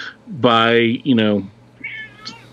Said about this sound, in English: That was my cat. She's all excited about it.